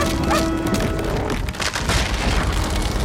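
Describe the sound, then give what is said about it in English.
A stone ledge cracking open and crumbling beneath a dog's feet: a dense, continuous roar of crashing, booming noise that stays loud throughout, with no quiet gaps. “The ledge below Rex's feet cracks open.”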